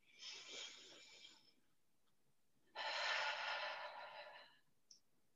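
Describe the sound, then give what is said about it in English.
A deep, slow breath: two long, soft, airy rushes of breathing separated by a quiet pause, the second fuller and louder, faint and alone, ending in a tiny click. “I'm going to ask everybody if they would please with me take a deep and slow breath.”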